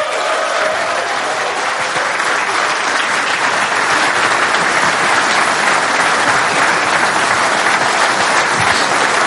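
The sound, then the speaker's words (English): Loud audience applause welcoming Irish football figure John Giles to the stage at a tribute event. Dense, sustained clapping from a large crowd runs unbroken from start to finish. “please, let's welcome to the stage and give it up for the great John Giles”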